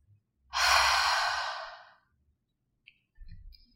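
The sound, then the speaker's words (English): A long breath is exhaled through the open mouth like fogging a mirror, one soft breathy hiss that starts strong and slowly fades over about a second and a half, followed by faint quiet sounds. “We'll inhale through the nose to fill up the lungs, and exhale through the mouth, making a sound like fogging a mirror. So it'll sound something like this.”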